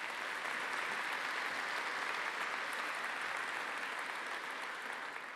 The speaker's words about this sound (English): Can you just give them a hand and welcome them here?